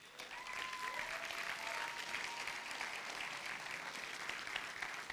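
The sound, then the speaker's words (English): Applause from an audience welcoming a guest to the stage at a church service; dense, steady clapping, fairly faint and continuous throughout. “I'm going to ask for you to put your hands together as we welcome Tim Anstead to the stage.”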